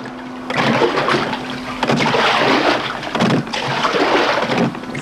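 An oar splashes and churns through water as a small boat is rowed. A steady rushing wash swells in a few surging strokes, with no voices.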